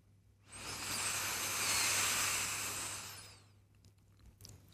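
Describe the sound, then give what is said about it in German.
A single long inhale drawn through a pinched nose, a soft airy hiss that swells for about three seconds and then fades, quiet and alone. “Drücke die Nase zusammen und atme durch sie ein.”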